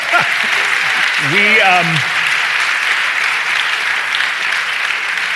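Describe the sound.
A live studio audience applauds in a long, steady wash of clapping. A voice speaks briefly near the start, and the clapping continues alone at an even level.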